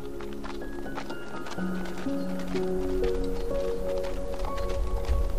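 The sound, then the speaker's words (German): Horses walking with riders on a family trek led by a guide, giving a soft, irregular clip-clop of hooves that grows slightly louder toward the end. “Gemeinsam mit eurer isländischen Führerin startet ihr euren Familienausflug hoch zu Ross.”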